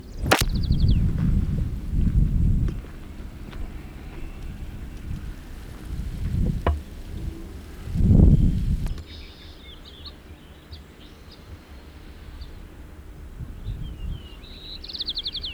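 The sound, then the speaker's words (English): White-crowned sparrow song on Grizzly Peak Trail in Tilden Park, California: a few brief, high, faint whistled phrases with long gaps between them, broken up by heavy low rumbling gusts of wind buffeting the microphone. “Grizzly Peak Trail, Tilden Park, Alameda, Contra Costa County, California, White Crown Sparrow B.”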